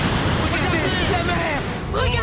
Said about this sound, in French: Regardez la mer s'ouvre !